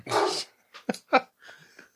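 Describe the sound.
A dog barks: one long, rough burst, then a few short, sharp barks with brief gaps, followed by softer whimpering sounds.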